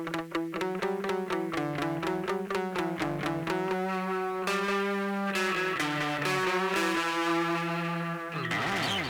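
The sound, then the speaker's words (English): Synthesizer driven through a Bad Comrade fuzz from Recovery Effects, a 100 Grit drive and a Cutting Room Floor module, giving harsh, buzzy distortion: rapid staccato notes at first, then sustained droning tones, ending in a noisy burst. “I am using the Bad Comrade from Recovery Effects, which is a really, really intense fuzz. And if I use the drive into that, it's way too much. Running the 100 grit then into the cutting room floor from Recovery Effects, and it sounds like this.”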